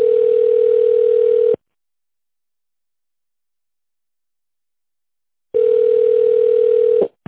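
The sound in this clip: Steady telephone line tone heard while a call is being transferred, in two sustained stretches separated by a few seconds of silence, with a short click as the second stretch ends.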